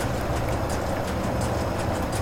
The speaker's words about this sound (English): This is a good sound, actually, this pumping sound.